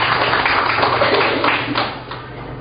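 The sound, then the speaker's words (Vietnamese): An audience applauds to welcome a nun invited to share with the audience. The clapping is loud, dense and sustained, then tapers slightly toward the end. “Chúng ta cho tràng tay mời Sơ.”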